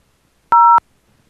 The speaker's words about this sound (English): There's no for all other regions, please dial 1 now.